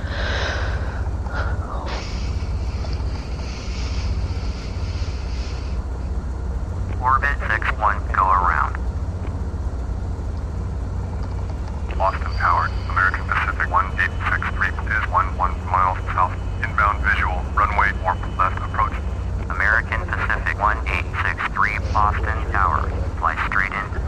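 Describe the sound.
The engines of an Airbus airliner in a flight simulator drone steadily at a low pitch throughout, with a voice speaking over them.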